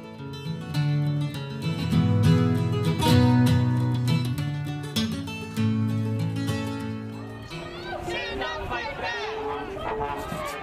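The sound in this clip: May Day street march with brass band music, including a tuba, playing sustained notes over scattered percussive hits, then a crowd of voices chanting in the final seconds.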